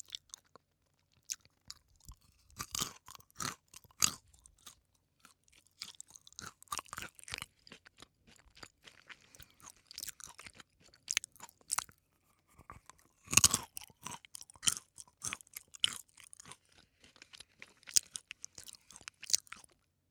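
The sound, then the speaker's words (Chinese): Crunchy food being chewed and eaten, with many sharp, irregular crunches and bites over a steady chewing rhythm. The loudest crunch comes in the middle. No one speaks. “你们好怪啊，老喜欢听我吃东西。”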